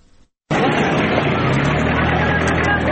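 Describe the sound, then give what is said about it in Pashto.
Heavy traffic of trucks and Datsun pickups, loaded with belongings, crossing from Pakistan into Afghanistan on the Spin Boldak–Chaman road: after a brief quiet moment, a dense, loud engine roar sets in and holds steady. “د کندهار د سپین بولدک چمن لار دلته په کډبار په سلګونه لاري او دانسن موټرونه له پاکستان څخه د افغانستان خاورې ته داخليږي.”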